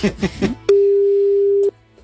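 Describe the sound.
A telephone line tone sounds during a call: one steady, unbroken, single-pitched beep that holds for about a second after a short burst of talk.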